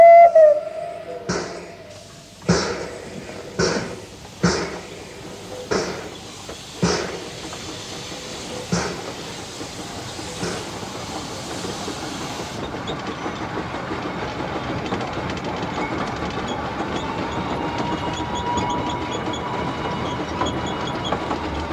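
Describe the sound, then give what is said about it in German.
A train departs from a station after a boarding call: a series of loud, separate wheel clacks at first, then a steady, continuous rolling rumble as the train runs on. “Einsteigen, bitte sehr, einsteigen. Und Abfahrt!”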